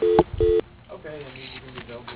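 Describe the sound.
Two short, loud telephone keypad tones sound in quick succession as a call is transferred to voicemail. A faint voice follows in the background.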